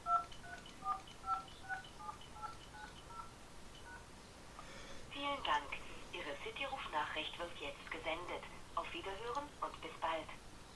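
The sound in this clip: Ten DTMF telephone tones key in the digits 1 to 0 for a radio call to a pager receiver with a display. The short, evenly spaced beeps are followed by a louder stretch of voice-like radio sound.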